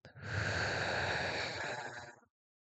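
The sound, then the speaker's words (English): A slow, deep exhale during a guided breathing exercise, heard as a soft, airy breath that swells quickly and then trails off gently before silence. “I want you to take three deep breaths with me. Ready? Inhale. And exhale”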